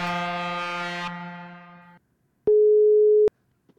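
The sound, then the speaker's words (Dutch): A single telephone ringing tone for a call being placed: one steady, mid-pitched beep lasting just under a second. It follows a fading sustained harmonic sound, and silence comes after it. “Laten we even bellen met Henk.”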